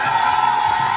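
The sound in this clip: Crowd cheering at a Eurovision party: a loud, continuous roar of many excited voices with a sustained shrill whoop riding on top, brief and unbroken.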